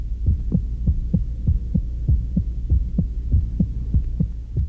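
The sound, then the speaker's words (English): A beating human heart, a man's, thumping in a steady, low lub-dub rhythm with many evenly spaced beats over a soft throbbing hum, heard alone. “That sound you hear is the heart of a man, the beating heart,”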